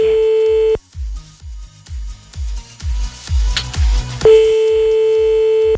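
Telephone line tone heard while calling a number: a steady mid-pitched tone sounds, breaks off, and then returns later. Between the two tones runs a rhythmic low thumping beat.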